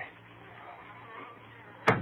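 An old locked tool chest, its lock just shot off, is opened with a single short thud near the end, after a stretch of faint low hum.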